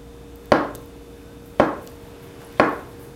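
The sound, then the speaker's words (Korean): A knife chops tofu into large pieces for a hot pot: three crisp, evenly spaced chops against a cutting board, each with a brief decay. “이 전골에 빠질 수 없는 두부는 큼직큼직하게 썰어야 또 제맛이죠.”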